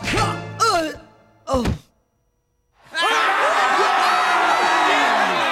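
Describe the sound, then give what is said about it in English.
A kung fu-style kick to the head sends a man sprawling onto the floor: a couple of yelled vocal cries and a solid thunk, a moment of silence, then a loud, sustained crowd roar. “In slow motion, he performs a kung fu-style kick. He's just about to hit her when she spins around and kicks him in the head, sending him sprawling onto the floor.”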